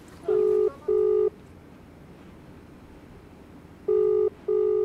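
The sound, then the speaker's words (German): Telephone keypad tones as a number is dialed for a call in Delhi: four loud, steady beeps in two quick pairs, separated by a long quiet gap, with no talking. “Zurück in Delhi, ein Anruf bei Avikal Somvashi.”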